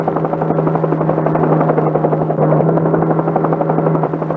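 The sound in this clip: A helicopter in flight: a loud, continuous rotor drone with a steady low hum and a dense buzzing texture that stays even throughout, with no voices.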